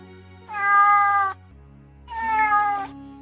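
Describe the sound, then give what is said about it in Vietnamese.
Two drawn-out meows from a cat lying on a person's lap. Each is clear and tonal, separated by a short pause, with no talk. “Mèo cát vốn thành thật nằm trên đùi Hà Ninh cũng kêu lên mèo mèo.”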